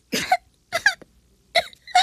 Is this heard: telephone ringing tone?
no